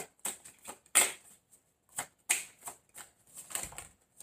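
Playing cards are drawn from a deck one after another: a run of crisp, papery flicks and slides in an uneven rhythm, many short bursts separated by brief pauses, fairly faint, with no voices.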